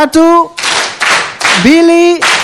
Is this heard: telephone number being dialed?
no